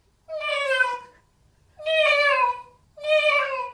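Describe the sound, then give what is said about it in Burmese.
A mother cat meows as she calls for her kittens: three loud, drawn-out, evenly spaced meows, each separated by a short silence. “ကြောင်မကြီးရဲ့သူ့သားသမီးတွေကိုလိုက်ရှာနေတဲ့အော်သံကိုကြားလိုက်ရပါတော့တယ်ကွယ်”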